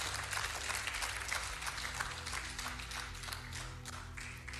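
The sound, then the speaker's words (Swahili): Audience applause during a Swahili-language sermon: a dense, steady wash of many hands clapping that stays loud and even for the whole stretch, with no pauses. “Makofi sasa nisikie mengi hapo.”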